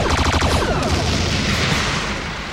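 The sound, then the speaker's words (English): Torpedoes being fired, a loud, dense booming roar with heavy low rumble that holds steady throughout, heard alone. “Shoot some torpedoes at it.”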